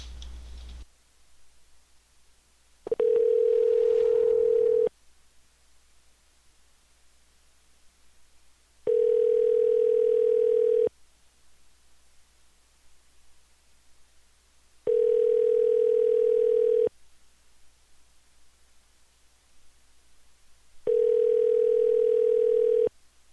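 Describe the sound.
A telephone ringing tone sounds while a call is placed: four long, steady, mid-pitched tones, each about two seconds, separated by equal gaps of near-silence, after a brief click at the start.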